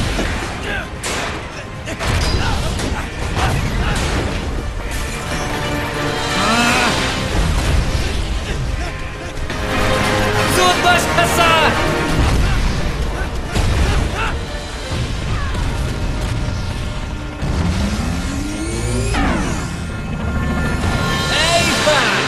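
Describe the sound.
Explosion in an animated cartoon: dense, loud booming bursts and crashes run almost without a break, with voices talking over the din.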